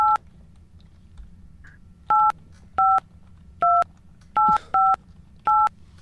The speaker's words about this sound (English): Who let him dial?